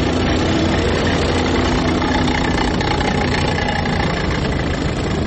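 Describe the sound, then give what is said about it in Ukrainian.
Tanks and armoured personnel carriers drive down an avenue, their diesel engines and tracks producing a loud, steady, heavy low rumble that continues unbroken, with no talk. “Починає вібрувати повітря, наповнюючись сморідом солярки. Ліворуч від мене по проспекту їдуть танки і БТРи, знімаючи асфальт гусеницями.”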